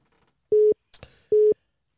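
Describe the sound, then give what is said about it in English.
Telephone line tones as a caller comes in: two short, steady mid-pitched beeps with a brief click and crackle between them. “The caller that's supposed to be talking to you is calling in.”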